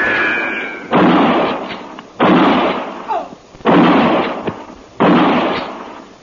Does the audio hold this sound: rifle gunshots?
yes